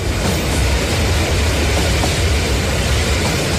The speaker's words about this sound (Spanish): el último tren está a punto de partir. Ocupen sus asientos.